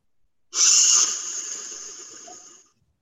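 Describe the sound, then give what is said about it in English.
A single sharp breath drawn in through the mouthpiece of an asthma reliever inhaler, a loud airy hiss that starts abruptly, peaks for about half a second, then tapers gradually over roughly two seconds before stopping. “And then I take a I don't know how to describe it, like a short, like a sharp breath in.”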